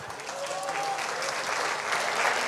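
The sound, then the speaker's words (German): Hearty audience applause at a civic gathering in Kapfenberg, offered as thanks to the people present. The clapping is steady and even, holding at a moderate, consistent level throughout. “Und ich glaube, das ist einmal ein kräftiger Applaus wert.”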